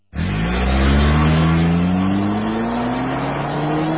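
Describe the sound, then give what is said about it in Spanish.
A car engine revs hard at very high RPM, a loud continuous roar whose pitch climbs slowly and steadily across four seconds, with no voices. “Los motores trabajan a altísimas revoluciones por minuto.”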